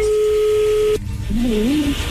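Telephone call being dialed and connecting: a steady, loud tone holds, cuts off abruptly, and is followed by a lower, wavering tone.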